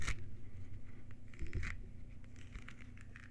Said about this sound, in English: That's the sound of me peeling a Decalpon, a Sumo brand Decalpon. Sumo citrus is in season, folks. It's big, beautiful tangerines.